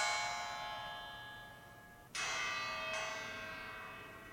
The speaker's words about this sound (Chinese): 但当它们叮咚响的时候，您转过身来问，从哪里来的声音？您会发现是动态雕塑发出的声音